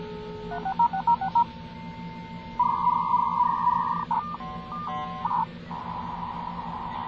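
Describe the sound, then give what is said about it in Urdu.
Telephone dialing tones as a number is dialed for a dial-up internet connection: a few short beeps, then longer held tones in a stepped pattern over a low, steady hum. “کون سا number dial کر رہی ہو 3660033 dial کرو نا”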